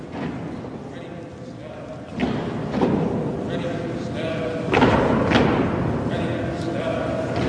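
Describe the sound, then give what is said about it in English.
Hard-soled shoes thud on steps inside a cathedral as a procession climbs. A few heavy footfalls stand out over a steady low murmur. “You can hear every step with the hard shoes.”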